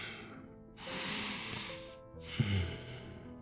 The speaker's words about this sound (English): Let's take one more deep breath.